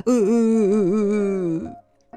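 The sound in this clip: A man crying in a drawn-out, wavering wail that lasts under two seconds, its pitch trembling slightly throughout before it breaks off into quiet.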